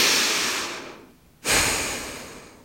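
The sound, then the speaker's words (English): Deep cleansing breaths during a guided breathing exercise: two long, airy breaths separated by a short silent pause, each starting strong and fading out gradually. “And exhale. And then inhale, exhale, deep cleansing breath.”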